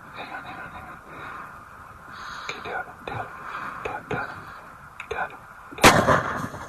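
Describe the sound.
A single sharp, loud gunshot rings out while hunting over a decoy, following several seconds of quiet whispering and faint rustling.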